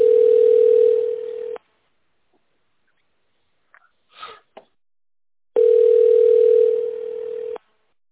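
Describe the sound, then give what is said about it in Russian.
A telephone line sounds its tone after a dropped call connection: two long, steady, mid-pitched tones, each lasting about a second and a half, separated by roughly four seconds of near silence broken only by a faint, brief rustle. “В данный момент извините, связь прервалась.”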